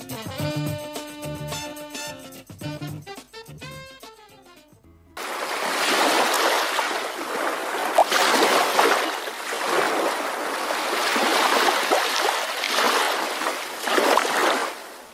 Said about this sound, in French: Et voilà, c'est sur ces bruits de mer pour détendre notre invité Charlie Divry.